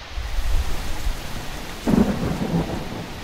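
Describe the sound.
Rain falls with thunder: a deep rumble of thunder opens under a steady hiss of rain, and a brighter burst of rain noise swells in the second half. No voices are heard.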